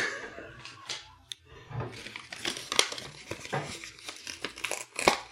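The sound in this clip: Paper envelope crinkling and rustling as it is handled and searched, with irregular crackles and a few sharper crisp snaps among the steady rustle.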